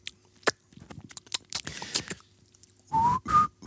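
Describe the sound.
Human whistling: two short whistled notes near the end, the second pitched slightly higher. Scattered clicks and rustling mouth sounds come before them.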